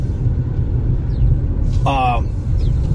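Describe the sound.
Steady low road rumble from a car driving through the streets of a small town, droning evenly throughout, with a brief tonal sound rising out of the noise about two-thirds of the way in.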